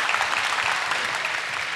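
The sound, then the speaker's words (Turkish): Audience applause at a stage show: a brief burst of dense, even clapping that stays at a steady level throughout, with no voices over it. “Bir alkış alalım mı şu Maltepe?”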